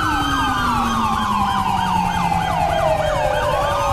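Ambulance and fire engine sirens in the video game FivePD, loud and overlapping. A rapid warbling yelp rides above a slowly falling wail, continuous from start to end.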